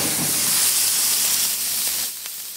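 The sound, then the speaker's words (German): Wagyu steak seasoned with salt searing in rendered wagyu fat, giving a dense, steady sizzling hiss that holds constant, then drops somewhat in loudness near the end. “um wirklich möglichst kurz das Wagyu-Fleisch anzubraten und die maximale Röstung hinzubekommen”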